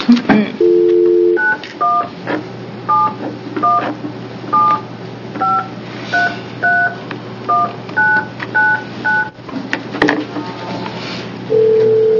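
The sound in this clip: Telephone keypad tones as a number is dialed during a committee meeting: a longer opening tone, then many short, evenly pitched beeps in an irregular quick series over a low steady hum.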